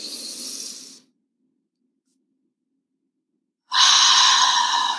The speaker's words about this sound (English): Exhale all of that old air out.